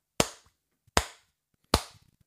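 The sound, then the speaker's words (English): Three sharp hand claps for syncing audio and video on an iPhone recording, evenly spaced, each a crisp snap that dies away quickly. “Yeah, no, we're going to just do some sync claps, and we'll use your iPhone video and audio then.”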